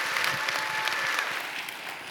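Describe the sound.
Warm audience applause welcomes a guest speaker to the pulpit at a Salem Alliance church service, a soft but steady patter of many hands clapping that eases off slightly toward the end.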